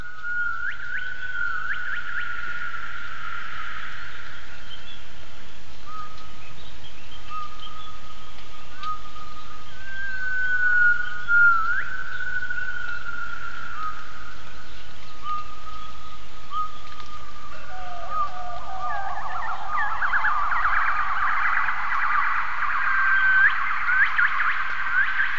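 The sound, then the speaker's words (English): Song of a rare gibbon species: the male's clear, sustained whistled calls come first, then the female's reply builds into a dense, loud, rising crescendo of rapid notes. “that's the call of the Calvid gibbon, which is a very rare gibbon. But all gibbons sing, they sing between the males and the females. So those first calls were the calls of the male, and then that crescendo was the reply of the female.”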